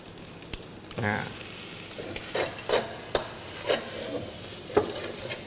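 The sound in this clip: Scraping stirring and a steady sizzle as dried shrimp, a low-salt, naturally processed kind, are added to a pan and mixed in; several scraping strokes rise over the constant frying hiss.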